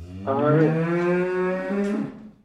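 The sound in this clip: A cow at milking time gives one long, loud, deep moo that holds steady for about two seconds and then tails off, heard alone.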